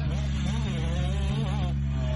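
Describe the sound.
Kawasaki motocross motorcycles roar off the start gate into a sharp left-hander, a loud, dense, continuous engine blare with revs surging and dipping throughout.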